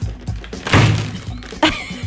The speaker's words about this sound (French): Ah, ben c'est ça qu'il fallait, le frapper sur la table le plus possible. Frappe-moi ça contre la table, OK?